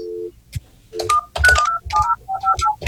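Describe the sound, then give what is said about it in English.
Telephone number being dialed on a keypad: a brief dial tone comes first, then a quick series of short electronic beeps of varying pitch, mixed with soft low thumps. “He's dialing. He dialed nine numbers.”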